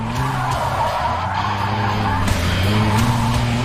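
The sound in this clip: A car drifting, its tires skidding over a continuous, loud engine roar. The scraping, droning noise holds steady across the whole stretch without clear breaks.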